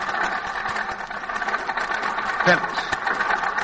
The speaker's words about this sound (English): That motor sounds bad.